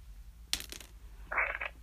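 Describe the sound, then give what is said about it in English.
Dice dropped into a bag already full of dice make two short bursts of clattering plastic clicks, each rattle briefly settling. The sound is fairly faint and heard alone. “The noise you hear is me dropping dice into a bag. Filled with dice.”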